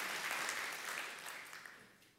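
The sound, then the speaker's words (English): An audience applauds, a faint, dense patter of many hands clapping together that holds steady and then fades away toward the end. “Why don't we give these people a hand clap?”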